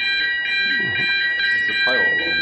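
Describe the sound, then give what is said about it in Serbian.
A fire alarm sounds during a fire drill, a steady, piercing high-pitched tone that holds unbroken through the whole clip while people talk over it. “Kažu da je ovo samo proba alarma za... za požar, tako da možemo mirno nastaviti, samo da prestane alarm.”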